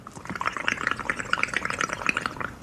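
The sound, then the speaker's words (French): Air blown through a straw into water makes a dense, continuous burble of many small bubbles gurgling and popping, with no voices. “On fait pénétrer l'air dans l'eau en agitant l'eau ou en soufflant avec une paille.”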